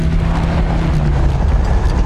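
Car driving while following another car: a loud, steady low engine and road rumble with a rushing, wind-like hiss over it that runs without a break.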